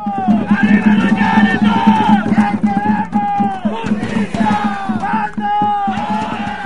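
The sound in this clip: A street protest crowd of more than 1,000 cleaning workers and supporters in Los Angeles chants and shouts together, demanding better wages and health insurance. The loud, rhythmic group voices rise and fall in repeated phrases without a break.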